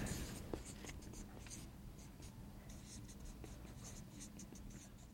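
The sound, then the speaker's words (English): Marker or chalk scratching across a board, faint continuous strokes with occasional sharper taps, a steady scribble without any talk over it. “I always wish I could write faster at this point.”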